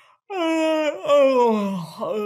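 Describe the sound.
A human voice imitates a cat yawning with a drawn-out, moaning wail that breaks briefly, resumes, and trails off in a short final glide.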